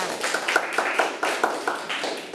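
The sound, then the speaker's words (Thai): Children clap in a classroom with scattered, irregular claps that come in quick bursts and stay fairly soft throughout. “เด็กๆปรบมือให้เพื่อนทั้งสองคนด้วยค่ะ”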